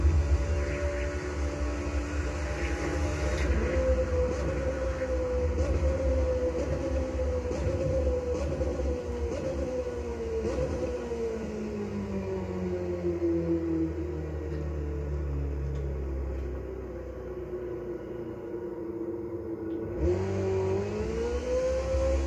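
Engine roar of a car driving fast in a video game, a loud, continuous drone whose pitch shifts up and down as it speeds along, with a brief dip near the end.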